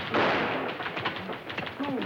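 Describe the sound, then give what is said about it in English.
Gunshot: a single sharp, loud blast near the start that decays into a rumbling tail, followed by a faint voice. “Earl, that shot, they'll know you're here.”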